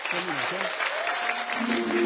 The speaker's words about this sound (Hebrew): כמו שאתם רואים פה, המנגנים על הבמה, עשו להם הרבה הרבה כפיים, מגיע להם.